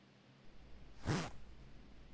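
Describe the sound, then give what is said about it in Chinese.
A zipper is pulled up on a cosplay costume being tried on: one quick, raspy zip that swells and fades in about a quarter of a second, alone against a quiet background. “帮我把这个拉链拉上。”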